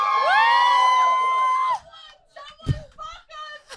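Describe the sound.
A comedy-show audience bursts into a loud, sustained cheer of whoops and high shouts. The cheer breaks off abruptly into scattered individual yells and voices talking.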